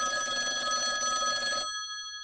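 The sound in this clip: A telephone rings while a call is placed. A bright, rapidly trilling electronic ring sounds loud for about a second and a half, then cuts off abruptly into silence.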